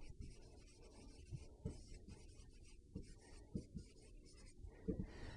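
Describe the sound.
A pen scratches faint strokes while a demand-function graph is drawn for a consumer surplus lesson: a few soft, brief scrapes and taps, very quiet and alone.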